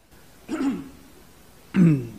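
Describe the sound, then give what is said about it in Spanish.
Two throat-clearing coughs from someone whose throat is irritated by talking. The two rough bursts are separated by a pause of about a second, with no talk around them. “Perdón, soy re sensible de acá, empiezo a hablar y te empieza a raspar y toses”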